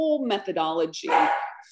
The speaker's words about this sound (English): I'm going to pause this because my dog is barking.